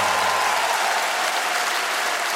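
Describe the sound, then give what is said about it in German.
Applause from a crowd: dense, steady clapping that holds at an even, loud level from start to finish with no voices over it. “An der Stelle einen großen Applaus an meine Rechtsanwältin Julia Betzenberger.”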